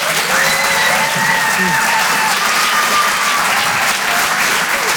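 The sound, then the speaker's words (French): Applause and cheering from a comedy club audience welcoming a stand-up comedian on stage: dense, steady clapping held at a loud level throughout, with a few whistles riding over the top. “Je vous demande de faire un maximum de bruit, s'il vous plaît, pour David Azria.”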